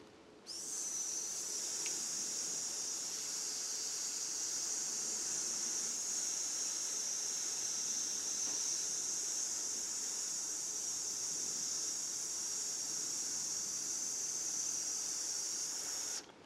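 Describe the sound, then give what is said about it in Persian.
One long, slow hissing exhalation during a breathing exercise, with air pushed out gradually in a controlled way. The hiss is a steady, even, bright sound that runs unbroken for about sixteen seconds, fairly quiet, with no talk over it. “باید بتونیم مدیریت کنیم که یک دفعه هوا خارج نشه، مثلا اینجوری نشه، دفعه خالی نشه، کم کم باید هوا بیاد بیرون.”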